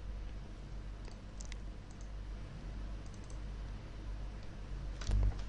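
Typing on a computer keyboard into a text file: a few faint, scattered key clicks over a steady low hum.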